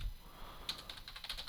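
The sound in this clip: Typing on a computer keyboard: after a quiet opening, a quick, uneven run of many light, crisp key clicks, faint throughout.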